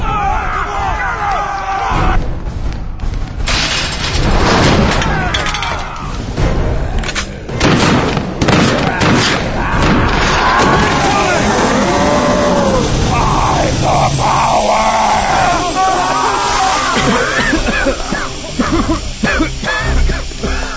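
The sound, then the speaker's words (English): Tear gas canisters are fired, giving loud booms and heavy thuds with bursts of hissing, repeated many times over steady crowd babble and voices. “That's tear gas, you idiot!”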